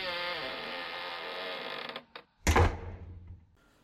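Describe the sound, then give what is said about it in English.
A drawn-out tonal creak as a door is opened with a key, followed by a couple of brief clicks and then a loud, low thud that fades away. “We'll open it then. I'm trying. We'll get the key. I am using the key. Got the one. Yeah, there we go.”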